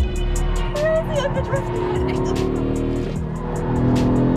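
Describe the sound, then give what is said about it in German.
An Audi five-cylinder car drifts with squealing tyres over a loud, sustained engine roar. A voice can be heard over the din as the tyre screech rises and fades. “wenn der Fünfzylinder einmal in den Drift-Modus kommt”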